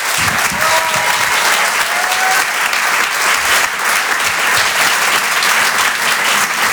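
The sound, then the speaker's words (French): A theatre audience at the Apollo Théâtre applauds and cheers as a comedian is welcomed onstage, a dense, steady roar of clapping that stays loud and continuous throughout. “C'est sa première ici ce soir à l'Apollo Théâtre. Je vous demande de l'encourager. Faites du bruit pour Rodrigue.”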